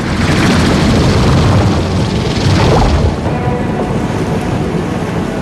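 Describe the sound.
Heavy rain pours down in a storm as someone runs through it toward a boathouse, a loud, steady rushing hiss with no clear breaks, easing only slightly partway through.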